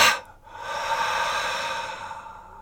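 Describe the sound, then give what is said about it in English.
A deep breath in a guided breathing exercise: a brief intake, then a long, steady exhale that gradually fades. “Take a nice deep inhale. Hold it up with what you'd like to release and let it go.”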